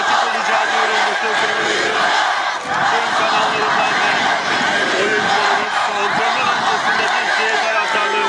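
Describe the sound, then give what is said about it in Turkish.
Football fans gathered around the club's training facility chant and shout with flares as team training begins. A dense, loud wall of crowd voices runs continuously, with one brief dip early on. “Günün erken saatlerinden itibaren tesisimizin çevresinde toplanan taraftarlarımız antrenmanın başlamasıyla meşaleler eşliğinde takımımıza tezahüratlarda bulundu.”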